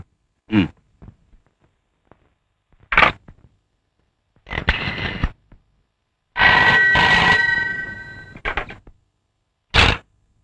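A telephone rings with a bright, metallic bell tone in several separate bursts of uneven length. Quiet gaps separate the bursts, and one ring runs noticeably longer than the others.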